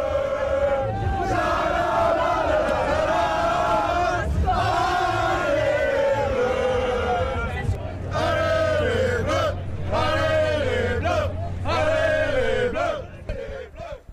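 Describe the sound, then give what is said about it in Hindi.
French football fans chant outside the stadium after a win over Senegal: a loud crowd bellows rhythmic, drawn-out phrases in unison, with short breaks between chants and one sustained shout near the end. “Senegal के खिलाफ जीत के बाद France के fans झूमते नजर आए। ये तस्वीरें आप देखिए, फ्रांस के प्रशंसक खुशी से झूमते दिखे, स्टेडियम के बाहर नारे लगाते दिखे।”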